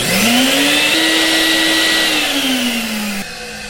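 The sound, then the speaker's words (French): A central vacuum cleaner installed in a basement, in its original, not acoustically improved, version runs with a loud, steady roaring whine. Its low tone rises at start-up, holds, then sags, and the level drops slightly near the end. “L'aspirateur, en tant que tel, souvent est installé au sous-sol. C'est une source importante de bruit, je peux faire entendre.”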